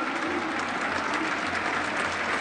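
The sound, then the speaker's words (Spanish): Crowd at a football match applauding through a minute of applause while play continues, a fairly faint, even wash of clapping and crowd noise. “El partido continúa mientras el público se encarga de llevar adelante un minuto de aplauso.”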